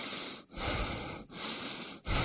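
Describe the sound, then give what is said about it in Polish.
Slow breaths in and out, each a broad, airy rush of hissing air, follow one another at an even pace. Brief silent gaps separate them and no voices are heard. “Proszę oddychać.”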